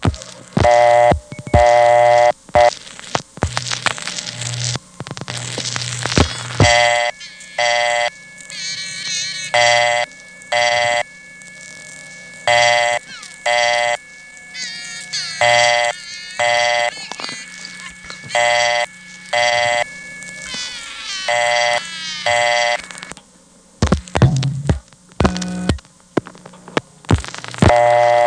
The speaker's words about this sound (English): that time there definitely was a payphone stuck on the line, because you can clearly hear both coin tones of the newer totalizers, 1700 and 2200.